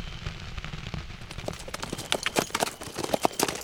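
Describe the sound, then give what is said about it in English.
Horse hooves pound at a fast riding pace, a rapid, irregular stream of thuds and sharp clacks over a constant rough rumble, with no voices. “Matt and Sam rode at a hellish pace for the second half of the night.”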